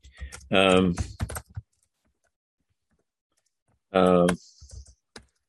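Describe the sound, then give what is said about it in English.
Computer keyboard typing comes in two short clusters of quick keystrokes separated by a long silence, each near a brief louder tonal burst. “if you've got, let me type this in”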